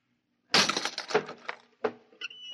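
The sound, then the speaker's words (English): A lock is smashed: a sudden loud crash is followed by several sharp cracking, clattering impacts, then a few lighter clinks. “I'll have to smash the lock.”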